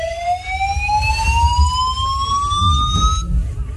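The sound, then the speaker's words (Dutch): A building evacuation alarm sounds as one steadily rising whooping tone that climbs for about three seconds and then cuts off, over a low rumbling background. “En dan nu een evacuatie. Nee, dit was pas geleden hier in het gebouw, moet je horen.”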